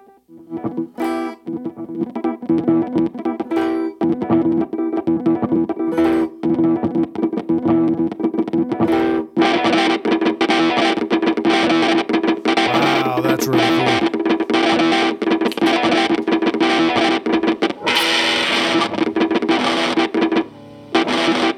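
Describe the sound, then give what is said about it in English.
Gretsch Broadkaster electric guitar on its neck pickup with the tone rolled back, played through a glitchy effects pedal: a dense, continuous wash of loud, distorted, heavily processed tones that holds steady almost throughout. “Like, boy, I love the glitchy stuff. Yep, that pedal does that.”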